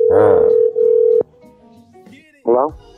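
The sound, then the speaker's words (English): A steady telephone tone hums under a voice for about a second, then cuts off with a click; a voice speaks again briefly near the end. “Just, just, just dial the number, and we'll make them do the work.”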